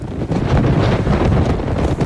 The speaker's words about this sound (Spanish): El Levante, caliente, seco y a veces insoportable, puede soplar más de 150 días al año y superar los 100 kilómetros por hora.